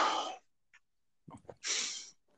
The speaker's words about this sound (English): Nah, I yawned and then popped on my fingers.